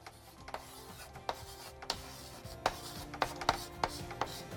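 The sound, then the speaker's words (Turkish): A pen scratches across paper while someone writes down a note: many short, faint scraping strokes in an uneven rhythm, with no talk. “Üçüncü maddeyi hemen yazıyorum.”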